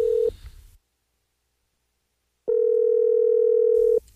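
Ringing tone on a telephone line: the tail of one tone cut off at the start, silence, then a single steady tone lasting about a second and a half, heard alone.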